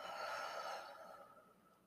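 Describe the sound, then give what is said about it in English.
A deep exhale during a breathing exercise: one long, airy breath that starts strong and slowly fades over about two seconds, with no talking. “Inhale all the oxygen you can. Expand your lung space. And exhale.”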